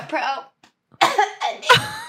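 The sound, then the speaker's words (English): A person coughs with a lingering cough and a very dry throat: after a brief pause, a few harsh, raspy bursts come in quick succession, loud and clear. “No, I just I've been dealing with this cough for a while. My throat is just so dry.”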